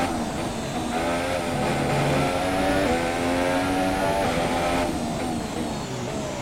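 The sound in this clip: Car engine in the racing video game Forza, driving partly over grass: a steady, moderately loud droning whine whose pitch climbs and drops with gear changes, with no talk.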